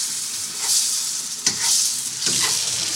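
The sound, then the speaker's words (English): Pasta browns in a hot pan with a steady bright sizzle and a few louder stirring scrapes that come and go over the frying. “So you're not worrying about the water going back into the pan there when you're tonguing it in?”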